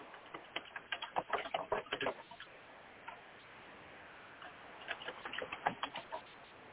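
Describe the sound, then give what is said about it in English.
Keyboard typing clatters over a call line, arriving as two bursts of rapid, uneven clicks separated by a quieter pause, with no talk over them. “put yourself on mute if you're typing”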